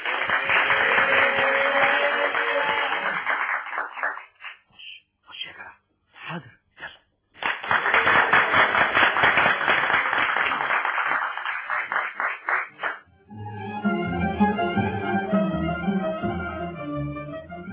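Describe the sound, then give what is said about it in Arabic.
Audience applause for a new singer being introduced at a venue: two long stretches of dense, loud clapping separated by a brief break of scattered claps, then a different, tonal sound takes over near the end. “يستحق منكم تشجيع، تكييفة كبيرة قوي.”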